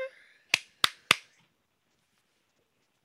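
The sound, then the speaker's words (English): Three sharp hand claps, evenly spaced and crisp, switch off a Clapper sound-activated light switch, followed by near silence. “Clap it off. Clap, clap it off, Ma.”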